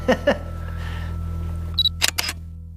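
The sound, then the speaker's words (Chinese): A camera shutter taking a photo of a horse whip: a brief high electronic beep, then a quick cluster of sharp mechanical clicks over a steady low hum. “我跟你说、哦，我拍照。”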